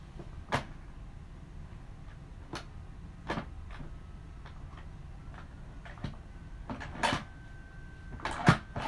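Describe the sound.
Lid of a new 6-quart Instant Pot pressure cooker being fitted and locked: a series of sharp plastic clicks and light knocks, scattered irregularly over several seconds, with a tight cluster of clicks near the end and faint handling noise between.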